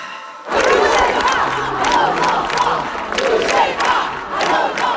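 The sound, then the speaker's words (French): Protest crowd chanting at demonstrations across France, with tens of thousands of people marching: a dense, loud roar of massed voices with rhythmic chanting. It bursts in after a brief quieter moment and stays at a steady level throughout. “Alors, ce que vous entendez, ce sont les manifestations des derniers jours en France.”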